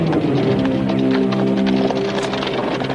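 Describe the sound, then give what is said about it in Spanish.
Hooves clip-clop in a steady, continuous rhythm as a woman drives off in a horse-drawn cart after taking up the whip, the hoofbeats moderately loud over a sustained tonal background. “Coge el látigo y se marcha en su carro dejando a Sean en tierra.”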